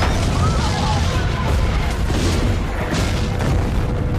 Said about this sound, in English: Rockets hit the paddy field and a wooden hut is destroyed.